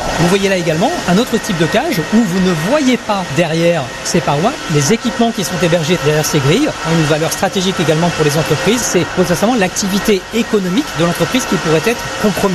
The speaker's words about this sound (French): un data center c'est aussi très bruyant à cause du refroidissement des serveurs. Le bruit que vous entendez est produit par les ventilateurs qui font circuler l'air à l'intérieur des serveurs.